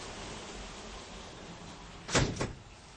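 A balcony door is shut against a steady hiss of heavy rain, giving two quick thuds close together, after which the rain noise drops noticeably quieter.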